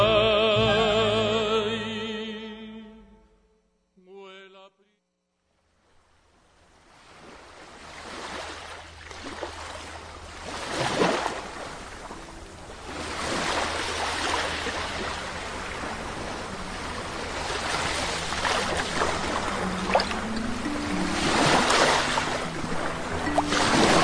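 Ocean waves, a broad rushing wash of surf that swells and recedes in slow surges, following a short musical passage that fades out at the start.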